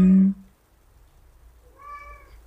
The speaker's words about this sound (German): Meine Katze spricht gerade mit.